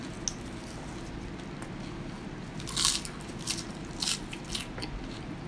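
Crunching bites and chewing of a simple dish of pork, refried beans and romaine salad: a few sharp crisp crunches in the second half, heard over a steady low background hum.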